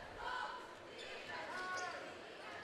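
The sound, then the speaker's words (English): A basketball is dribbled on the court during a game in the third quarter. The bounces are faint, heard under a commentator's talk and steady crowd noise. “dribbling top of the three-point line.”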